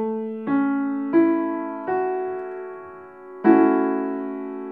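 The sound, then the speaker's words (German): A piano plays a major triad with an added sixth. Single notes are struck one after another and ring on, then a louder attack sounds near the end and sustains. “Er besteht aus einem normalen Dreiklang mit einer hinzugefügten Sechste, der Sixte Ajouté. Das klingt so.”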